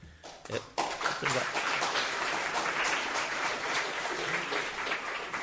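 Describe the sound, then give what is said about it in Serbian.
Audience applause after a short poem is recited: a few separate claps, then a steady, fairly faint patter of many hands that carries on to the end. “Ja imam puno tih pesmica, ima nekih kratkih, pa da štedite malo dlanove, da mi nemojte mi mnogo pljeskati”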